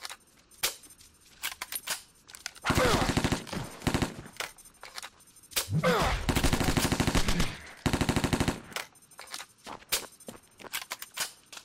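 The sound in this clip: Gunfire in a first-person shooter video game: three loud, rapid automatic volleys separated by short gaps, with scattered single sharp shots and clicks before and after.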